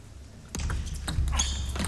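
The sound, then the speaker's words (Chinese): Table tennis ball clicks in a professional match as a spin-varied serve lands short to the opponent's forehand and play follows, a few sharp, light taps over steady background noise. “这个球好， 这个发球发了一个变化啊，直接发到了对方的正手短球”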